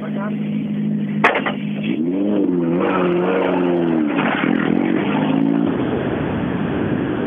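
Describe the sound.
A rally car's engine on a Rally Gotland stage in Sweden drones loudly throughout, its revs wavering up and down, with one sharp crack early on.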